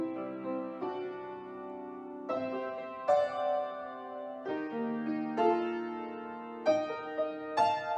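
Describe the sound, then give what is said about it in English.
Piano plays a soft, wistful melodic theme as a recording. Several notes and chords are struck one after another, each left to ring, with a few brighter accents toward the end. “I'm just gonna play a little recording of myself playing the piano. And I wanna play what that theme is for Santa Fe.”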